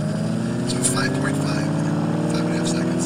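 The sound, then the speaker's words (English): Revving Mach-E electric SUV with its engine sound, heard during cone driving: a loud, continuous buzzing drone of stacked tonal hums holding steady for about three seconds without a break. “It does sound pretty cool, to be fair. It's not bad. I'm glad that I've got that sound there. That sounded pretty good. So yeah, man. So that's the Mach-E.”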